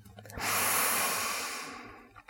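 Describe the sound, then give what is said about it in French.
A deep inhalation taken during a yoga voice-and-breathing exercise: one long, airy intake that swells quickly, holds steady for over a second, then gradually tapers off, heard alone with no talking. “Prenez une profonde inspiration”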